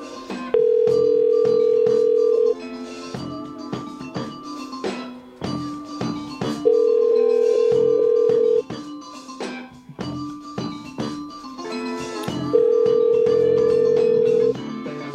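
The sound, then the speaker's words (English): Telephone line tones from an international call to Germany: three long, steady, mid-pitched beeps spaced several seconds apart, each lasting about two seconds, over a dense, busy background of other sound. “What you're hearing is me trying to call Germany”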